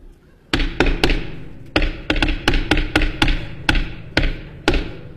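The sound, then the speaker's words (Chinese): Knocking on a door sounds during a comedy stage routine. There are many sharp, hollow knocks in an irregular rhythm, with short clusters and pauses between them, and they ring clearly with no talk over them. “你干嘛呢？ 敲门。 您敲门？”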